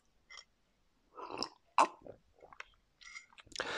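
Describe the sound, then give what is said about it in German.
Coffee being sipped from a mug: a few short, soft slurping and swallowing mouth sounds come in irregular bursts, with no talking. “Moment, nur einen Schluck Kaffee nehmen.”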